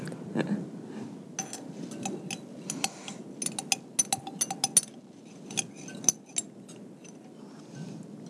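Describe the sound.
A spoon clinks against a container while a cosmetic product is mixed, making many quick, irregular, bright metallic taps. The taps are fairly faint, cluster densely in the middle and thin out toward the end.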